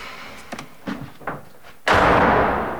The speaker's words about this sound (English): Stuart slams his front door